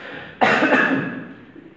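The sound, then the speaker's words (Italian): A single harsh cough from a person prone to coughing when they catch cold bursts out sharply, then its breathy tail fades over about a second. “non penso di avere il coronavirus. Ce lo auguriamo. Però la tosse ogni tanto di vero mi viene, quando prendo freddo mi viene.”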